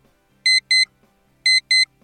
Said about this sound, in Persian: خب همینطور که میبینید داره زنگ میخوره